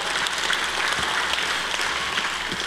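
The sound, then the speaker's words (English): Audience applause fills the whole stretch as a dense, even wash of many hands clapping at steady loudness, with no voices standing out. “Let's give him a round of applause, right?”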